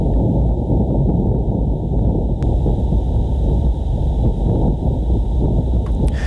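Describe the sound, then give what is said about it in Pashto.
Wind on Mars captured by a rover's instruments, a steady, muffled low rumble with faint rustling texture, even in level from start to finish. “دغه وسیلې په مریخ کې د خپل فعالیت په لومړۍ اونۍ کې دغه آوازونه ثبت کړي او مځکې ته لیږدولې دي. ناسا پرون د باد دغه آډیو یا ثبت شوی غږ خپور کړ.”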